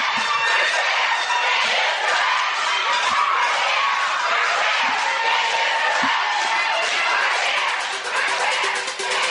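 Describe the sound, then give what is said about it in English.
Loud crowd shouting and cheering, used as a played sound effect of students storming through windows; a dense, steady roar of many voices with some higher shrieks. “we would like to play for you at this time the sound of the gay students storming through the windows.”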